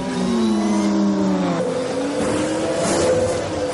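An imperial speeder bike accelerates and rises in a forest chase in a 1983 science-fiction film: a loud, continuous engine whine whose tones climb in pitch partway through, alone with no voices.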